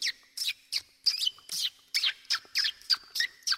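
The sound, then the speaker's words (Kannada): Parrots calling outside a house doorway in a rapid series of many short, sharp, high-pitched squawks, spaced fairly evenly and loud against a quiet background. “ನಾವು ಅಜ್ಜಿ ಮನೆಯ ಬಾಕಿಲಲ್ಲಿ ನಿಂತಿರುವಾಗ ಗಿಳಿಗಳ ಶಬ್ದ ಹಿಂಗೆ ಕೇಳುತ್ತಿತ್ತು.”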